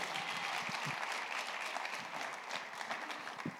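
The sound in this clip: Faint, sustained applause from a church audience welcoming a guest pastor, a steady wash of clapping with no break.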